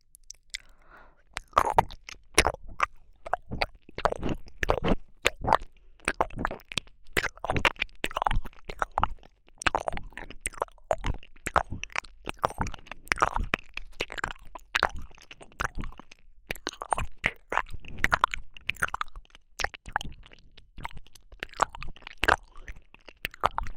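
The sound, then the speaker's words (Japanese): Quiet, wet ASMR ear-licking mouth sounds: many soft, irregular smacks, licks and clicks follow one another closely throughout, with no talking. “次は反対側を。 こっちの疲れもペロペロして柔らかくさせていただきますね。”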